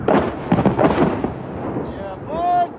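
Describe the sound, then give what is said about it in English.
Incoming artillery fire on the front lines in central Ukraine: a few deep, rumbling blasts in quick succession, fading into lower rolling noise with a brief thin tone near the end. “Of incoming artillery on the front lines somewhere in central Ukraine.”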